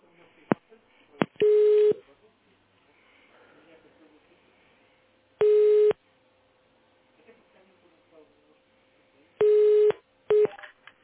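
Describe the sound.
Telephone line tones sound while a call is being transferred: a few short, clean beeps spaced several seconds apart, with sharp clicks before the first and between the last two, over a faint murmur.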